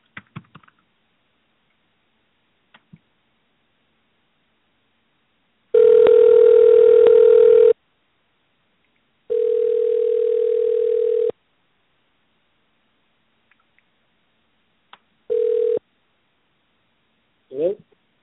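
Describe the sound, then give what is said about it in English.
A telephone dial tone sounds while a call is placed: a steady, even mid-pitched tone in three bursts, two long and one short, separated by silence, with a few faint clicks around them. “Let's try and dial Mr. Logan.”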